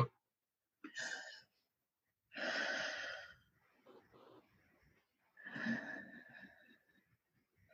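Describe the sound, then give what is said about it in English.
Slow, deliberate breathing during a guided breathing exercise, equal parts in and out: a few soft, airy breaths separated by quiet pauses, heard alone and faint. “what better gift than for us to breathe and help each other? So equal parts in, equal parts out. It sounds like this.”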